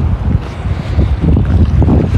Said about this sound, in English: So yeah, it's about eight degrees and a bit of a breeze, but not bad.